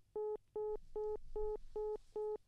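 Telephone keypad dialing as a call connects: six evenly spaced touch-tone beeps of equal length in a steady rhythm, faint, with no talk.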